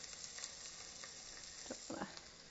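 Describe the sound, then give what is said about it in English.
A whole chicken thigh fries skin side down in a pan with a drizzle of olive oil, a soft, steady sizzle dotted with small crackles and pops throughout. “Skin side down. Actually, I'll drizzle a teeny bit of olive oil in there just to speed things along.”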